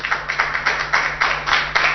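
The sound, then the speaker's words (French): Church audience clapping to acclaim the Lord, with many hands striking together in a steady, fast rhythm of about four claps per second, crisp and even throughout. “Est-ce qu'on peut acclamer le Seigneur pour tout ce qu'on a vu aujourd'hui?”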